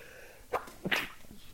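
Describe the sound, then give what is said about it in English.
A single faint sneeze: a short catch of breath followed by a sharp, breathy burst, with no talk around it. “Excuse me. So 4 places, 4 devices. Hold on, guys, I gotta sneeze again.”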